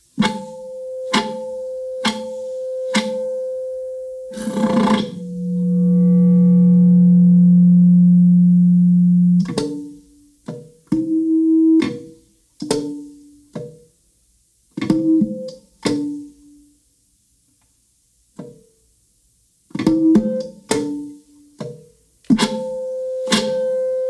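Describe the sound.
Controlled feedback tones are shaped with an alto saxophone in a contemporary experimental piece. Sharp clicks and short tonal bursts surround a long, steady low drone lasting several seconds, with brief silences between the sparse later bursts.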